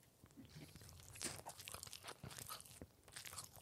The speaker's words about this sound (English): Okay, just take another bite and talk into it again.